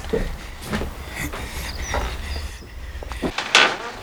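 Wooden knocks and clunks as a door is opened for an arriving visitor, a few soft, scattered impacts with a sharper, brighter clack near the end, and no voices.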